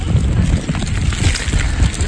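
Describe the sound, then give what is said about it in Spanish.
Wind gusts as snow falls at the Valdezcaray ski resort. It is a continuous, rough, rushing noise that buffets the microphone, with uneven low rumbling swells throughout. “Este sonido es nieve y viento, cayendo en la estación de esquí en Valdezcaray.”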